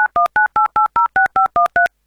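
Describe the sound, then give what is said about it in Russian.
Telephone keypad dialing tones as a call is placed: ten short, even dual-tone beeps in a quick, steady rhythm, loud and clear, with no talk. “Все, я починил телефон. Вот, звонит Наталья”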